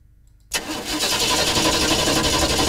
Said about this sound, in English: With the cooler weather setting in, it's possible that you might find your vehicle is a bit hard to start.